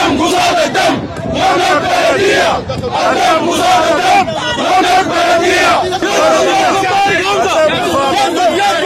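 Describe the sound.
Sudatel company employees chant slogans as a dense crowd, many voices shouting together loudly and continuously with a rough rhythmic swell.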